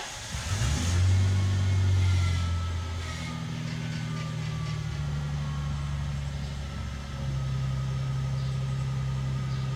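A faulty car engine revved up in a garage. Revs climb loudly near the start, then settle into a steady lower droning hum with slight shifts in pitch that runs to the end.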